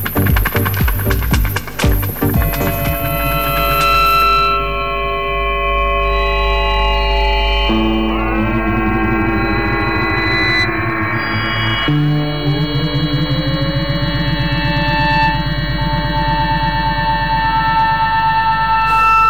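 Experimental instrumental music by a trio: a dense flurry of sharp percussive hits opens into sustained layered tones and drones, with sliding, bending pitches in the middle and steady harmonic notes carrying on loudly to the end.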